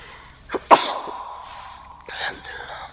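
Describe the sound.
A single sharp sneeze bursts out loudly near the start, preceded by a short intake and followed by a fainter breathy tail.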